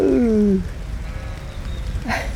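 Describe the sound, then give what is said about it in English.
One loud sheep bleat from a ewe with her lambs opens with a wavering, slightly falling tone, then fades into a low, steady background hush. “Oh, look. Oh, that's one of my ewes. With her lambs.”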